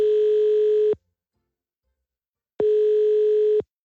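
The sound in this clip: A telephone ringback tone plays while a call to a land registry office in the Netherlands connects: two loud, steady, one-second tones separated by a silent pause of over a second and a half.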